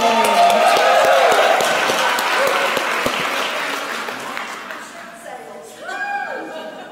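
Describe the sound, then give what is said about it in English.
A dense audience applause of many hands clapping together starts loud and full, then gradually thins and fades over several seconds. “Let's give her one more hand.”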